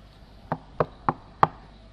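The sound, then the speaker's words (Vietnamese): Knocking on a room door: four crisp, evenly spaced raps, the last one slightly louder, standing out clearly against a quiet background. “Đột nhiên cửa phòng bị gõ.”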